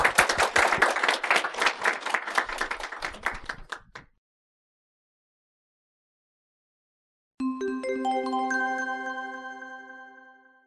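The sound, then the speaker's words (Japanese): An audience claps at a host's request, a few seconds of brisk applause that stops abruptly; after a silence, a sustained ringing harmonic tone enters and slowly fades. “はい、皆さん、拍手をお願いします”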